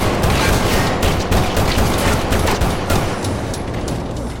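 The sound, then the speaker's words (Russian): Gunfire in a shootout crackles as a dense, continuous barrage of rapid shots, loud and unbroken for several seconds with no voices. “Сайкс стреляет человека Фрэнкса.”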